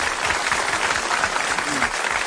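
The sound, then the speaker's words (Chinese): Audience applause for a judge at a singing contest: dense, even clapping that holds at a steady level from start to finish without a break. “好，掌声 送给七七。”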